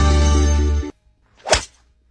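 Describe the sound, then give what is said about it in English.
A golf club strikes a golf ball with a single sharp, loud whack. It follows a sustained tonal sound that cuts off abruptly, then a brief quiet pause. “You know that one perfect golf shot that keeps you coming back?”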